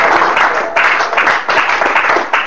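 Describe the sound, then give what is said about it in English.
Congregation clapping at a church service, a dense, steady burst of applause from many hands that continues throughout with no clear gaps. “Let's give Jesus a clap offering.”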